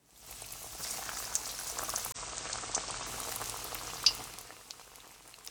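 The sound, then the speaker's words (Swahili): Chips sizzling as they fry in hot oil, a steady bubbling hiss with a few sharp pops rising above it and no talk. “Sasa tukaange chopsi. Zikaange kadhaa kwa wakati mmoja, lakini usizikaange zote kwa pamoja, sababu hilo litapunguza nyuzi joto ya mafuta.”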